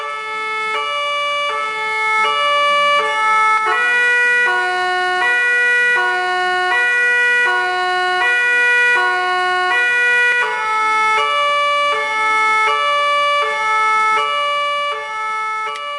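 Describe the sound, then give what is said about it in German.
Emergency vehicle siren switching between signals, its loud steady tones stepping back and forth between high and low pitches in a repeating alternating pattern throughout, with no talk. “Oft wechseln die Einsatzwagen zwischen den Signalen hin und her, um noch besser von den anderen Autofahrern gehört zu werden.”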